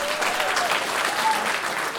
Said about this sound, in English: So please give yourself a round of applause.